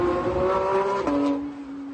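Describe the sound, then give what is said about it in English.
A Tesla races past other cars with a loud electric whine whose steady tone drops sharply in pitch as it passes, then fades away. “It's like these other cars aren't even trying. It's like they're like, man, I don't know. Like, I have to think, like, is it because they're not even trying and they're kind of just warming up? Or is it because this Tesla is just that fast?”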